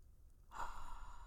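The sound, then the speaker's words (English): A single deep breath drawn in during a guided breathing exercise, a soft, airy inhale that starts abruptly partway through and holds steady, quiet and without any voices. “We're going to breathe in together three times. Inhale serenity.”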